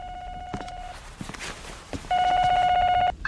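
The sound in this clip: A telephone rings as an anonymous tip call comes in, in two long electronic ringing bursts separated by a short pause, fairly loud and steady in tone.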